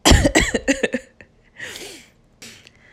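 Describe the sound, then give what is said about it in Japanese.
A coughing fit set off by breathing in, from someone with a cold and strained vocal cords: a quick run of harsh coughs, then raspy, wheezing breaths drawn in before a final rough cough. “もう朝だからさちょっと息を吸ったらもうむせんのよ”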